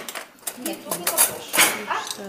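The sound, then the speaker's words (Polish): Cutlery and plates clink as they are taken out to serve soup, with a few bright, short metallic and ceramic knocks scattered under a person speaking. “Wyciągamy sztućce, wyciągamy talerze i będziemy podawać zupę.”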